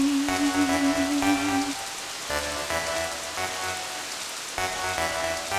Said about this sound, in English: Here comes a rain.